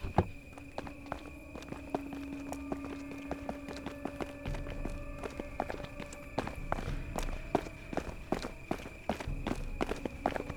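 Hurried footsteps of a person rushing to check on someone: many quick, faint steps in a fast, fairly even rhythm, with a steady thin hum running underneath.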